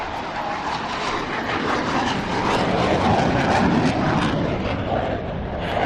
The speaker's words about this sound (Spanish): está despegando un F-16 y es muy posible que el ruido me impida escucharte